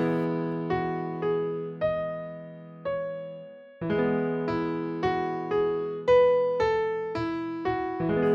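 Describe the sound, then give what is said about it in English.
A melody of single notes played over a sustained E major chord, demonstrating how a video game prelude would sound over one unchanging harmony; ringing, decaying notes step along in an even rhythm above the held chord, with no voices. “Or at least it would be if that melody was played just over an E major chord. That would sound like this.”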